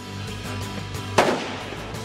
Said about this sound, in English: I felt the recoil. That's how powerful this gun is. But it is a fantastic rifle used by snipers around the world and made here in Canada.